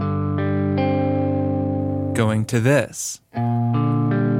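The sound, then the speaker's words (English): Distorted electric guitar sustains a chord and restrikes it a couple of times. After a brief spoken phrase it moves to a B-flat 6-9 chord, keeping G, D and C on top over a B-flat bass. “So we go from this to this. On guitar, that sounds like this”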